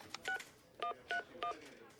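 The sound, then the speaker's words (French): Telephone number being dialed on a keypad: four short, fairly quiet dual-tone beeps at uneven intervals over faint background hiss. “Bon, j'appelle Harry.”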